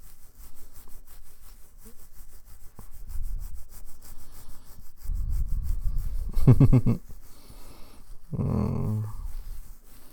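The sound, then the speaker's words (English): A hand rubs and scratches a beard, giving soft, bristly scraping strokes in a few separate bursts that grow louder and rougher in the second half, with no talk. “It feels nice when you rub my beard and scratch it.”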